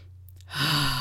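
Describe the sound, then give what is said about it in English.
A single deep breath, a sigh-like rush of air that swells up after a short quiet moment and holds steady to the end, with no talk over it. “I think this one requires a deep breath.”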